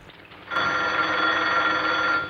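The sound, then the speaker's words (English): A telephone bell ringing in a private residence: after a brief quieter moment, one continuous, loud, bright ring begins and keeps sounding to the end. “A maid answers the phone for her.”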